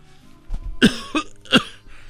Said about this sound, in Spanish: Oye, traigo mucha tos.